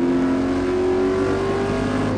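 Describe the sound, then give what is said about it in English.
A car speeding across salt flats on a land speed record attempt gives out a loud, unbroken engine roar. A steady tonal whine rises slightly in pitch as the car holds its speed. “The film takes us inside the car as it speeds across the Earth.”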